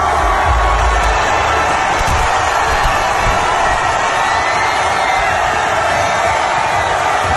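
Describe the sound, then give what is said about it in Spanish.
Arsenal fans roar and cheer in London, celebrating the club's Premier League title. Many voices blend into a loud, unbroken wall of crowd noise with scattered shouts and whoops. “Este es el sonido de la celebración del Arsenal hoy en Londres.”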